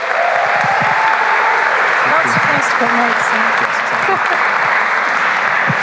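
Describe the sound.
Loud, sustained audience applause welcomes a woman speaker, a dense and even roar of clapping that stays strong throughout.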